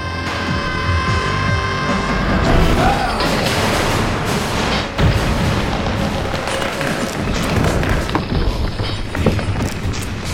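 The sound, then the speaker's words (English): An explosion detonating in a basement gives a loud, dense roar of crashing, rumbling noise that stays heavy across the whole stretch, with scattered thuds and a thin steady tone running through it. “Basement level. Point of detonation. 1 second after detonation.”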